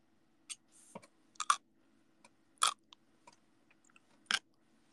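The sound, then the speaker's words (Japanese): Crisp, crunchy chewing of Japanese pickles (tsukemono): many short, irregular bites and crunches, some louder than others, over a faint low hum with no talk. “漬物美味しいね。マジ漬物って日本の宝。”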